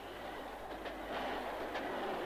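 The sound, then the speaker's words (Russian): A train pulls away with a steady, loud rumble of rail cars and a faint clickety-clack of wheels on the track, growing slightly louder toward the end. “Поезд тронулся, и вот огонька уже нет.”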